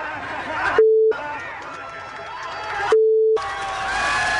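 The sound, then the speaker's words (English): A crowd cheers and shouts after an assault on a cameraman, a dense steady roar broken twice by a loud, flat electronic beep tone. “And then they cheered. They cheered like a bunch of maniacs”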